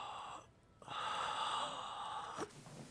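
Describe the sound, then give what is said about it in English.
A deep breath blown out during a check of the thoracic spine for tight, tense areas: a steady, breathy rush of air lasting over a second after a brief pause, fairly faint. “take a deep breath in and blow it all the way out”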